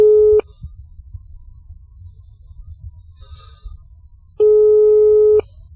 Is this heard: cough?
no